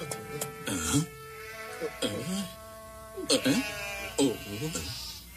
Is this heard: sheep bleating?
yes